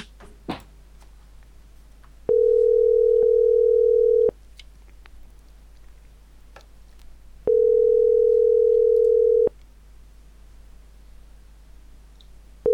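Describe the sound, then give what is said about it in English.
Ringing tone from a telephone call being placed: two long steady tones of the same pitch, each about two seconds, separated by a pause, with faint clicks in the background and no talk. “Okay, now it's dialing.”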